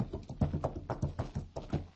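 Steady clip-clop of a horse's hooves as a bareback rider approaches near a ranch: many quick, evenly spaced hoof strikes in a rolling rhythm, with no voices.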